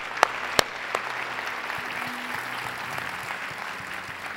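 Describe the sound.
A church audience applauds during a service, with dense, steady clapping throughout and a couple of sharp, loud individual claps early on.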